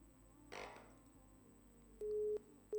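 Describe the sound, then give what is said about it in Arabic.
A telephone busy tone follows a disconnected call: after a soft rustle, a steady mid-pitched beep sounds loudly, stops, and then starts again just before the end. “فصلت المكالمة، تمام.”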